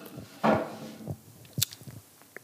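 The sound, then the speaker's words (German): A quick sip of coffee, heard as one short slurping burst followed by a few faint small clicks and soft noises. “Ich muss mal gerade einen Schluck Kaffee trinken, Freunde.”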